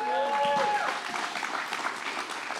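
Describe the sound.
Applause from a church audience, a fairly quiet wash of clapping that carries on steadily while a voice talks over it.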